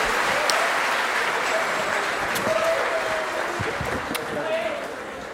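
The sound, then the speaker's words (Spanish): Applause for a newly engaged woman, a broad steady clapping from a crowd lasting several seconds, loud and even with a few sharper claps and whoops cutting through. “Un aplauso para ella, se van a casar.”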